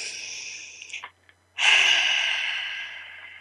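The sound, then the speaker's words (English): A group takes a collective deep breath together: a breathy inhale, a short silent hold, then a long, loud exhale that slowly fades. “So let's take a collective breath together.”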